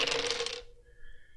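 Dice rolling on a table during a Blue Rose tabletop role-playing game, a dense clattering rattle for about half a second that settles abruptly, leaving a faint ringing tone.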